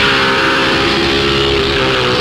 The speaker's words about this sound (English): Driving a Formula One Lotus needs special training